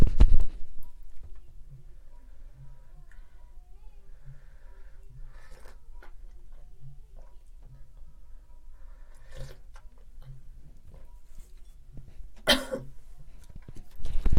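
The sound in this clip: Coughing after a sip of home-roasted decaf Colombian coffee went down the windpipe: a few sharp, separate coughs and throat-clearing bursts. The strongest come at the start and near the end.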